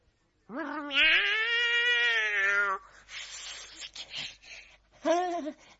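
A cat meows twice: first a long, loud, drawn-out cry, then, after a pause with faint rustling, a short second meow.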